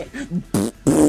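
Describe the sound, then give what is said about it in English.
Fart sounds: a few short, buzzy, rumbling bursts of varying length come one after another, separated by brief gaps, and grow louder toward the end. “Did you fart on me?”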